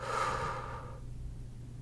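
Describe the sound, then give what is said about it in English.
A deep breath drawn during a guided relaxation exercise: a strong, airy rush of breath that fades into a softer, quieter tail, with no voices. “Take a deep inhale, fill up. exhale, let it go.”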